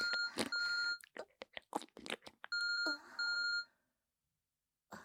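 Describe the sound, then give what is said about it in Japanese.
An incoming-call tone on a phone: a few bright electronic tone bursts with a buzzy, harmonic ring, broken up by crunchy clicks and soft rustling sounds between them before the sound falls silent. “この音、お兄さんから着信みたい。”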